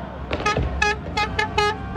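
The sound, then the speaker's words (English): Car horns honk in a Madrid street celebration of Spain's World Cup championship. Many short, bright toots overlap in quick succession over a low rumble of traffic. “A cacophony of car horns and firecrackers on the streets of Madrid, Spain.”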